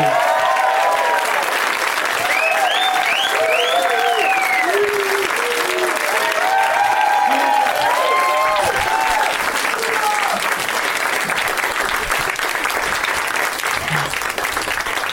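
A studio audience at the UCB theater applauds three comedy guests, with dense clapping mixed with whoops and cheering calls that rise and fall over the steady roar.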